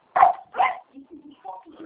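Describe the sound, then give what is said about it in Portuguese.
Two loud, sharp dog barks burst out in quick succession over a phone call, followed by quieter, lower-pitched sounds that trail off. “Tem um cachorro latindo aqui, não dá nem para ouvir.”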